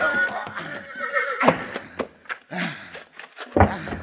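A horse being ridden fast across rough Old West country whinnies sharply twice over a busy, uneven run of galloping hoofbeats.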